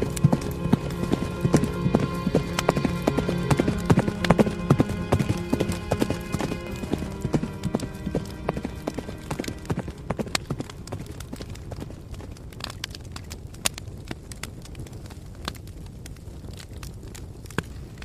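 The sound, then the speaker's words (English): Galloping horse hooves beat out a rapid, steady clip-clop that starts loud and full, then gradually thins and fades over the second half until only faint, scattered hoofbeats remain. “heard the fading sound of galloping abs.”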